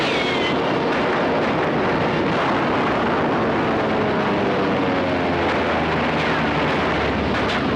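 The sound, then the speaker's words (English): A recorded war-film battle soundtrack from Sands of Iwo Jima, heard as a loud, unbroken roar of dense rumbling noise with heavy low-end energy throughout. “Who's shooting? No one is. That's a recorded soundtrack from a movie studio right out of the sands of Iwo Jima.”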